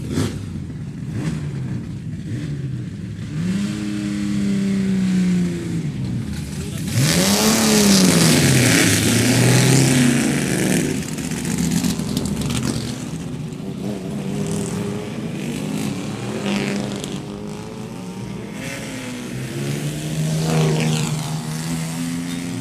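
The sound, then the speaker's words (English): Historic saloon racing cars at the Goodwood Revival 2023, including Mark 1 and Mark 2 Jaguars, Zephyrs, Alfa Romeos and a Saab, roar past. Loud engines rev, and their pitch rises and falls as several cars pass one after another. “the sounds of this particular grid Mark 1, Mark 2 Jaguars, we've got Zephyrs, we've got Alfa Romeos, we've got all sorts of glorious things, and of course, that brilliant sounding Saab driven by Alex Brundle”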